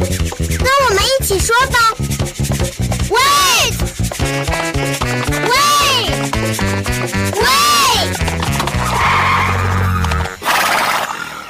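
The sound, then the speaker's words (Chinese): A cartoon horse in a children's adventure show neighs several times in high, rising-and-falling whinnies over lively background music. “谢谢你的帮忙，说 Wait，让马儿停下来”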